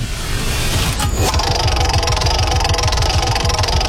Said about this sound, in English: So should we spin the wheel then and find out who has to tell their story?